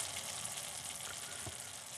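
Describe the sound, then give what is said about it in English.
Onions frying in a pan with celery and bell pepper, giving a steady, dense sizzle of soft crackling hiss that stays fairly quiet and even throughout, with no talk. “Kind of hypnotic, the smell of, or the sound of cooking onions.”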